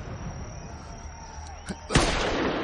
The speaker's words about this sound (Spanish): le dispara